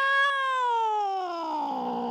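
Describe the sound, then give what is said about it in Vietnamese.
A cat meows once in a single long, drawn-out cry. It is loud and tonal, and its pitch slides steadily downward from start to finish. “may thay một con mèo từ đâu kêu lên.”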